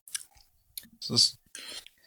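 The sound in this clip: Someone tastes a sip of raspberry sour beer, making faint wet mouth clicks, a louder airy slurp in the middle, and softer lip smacks afterward.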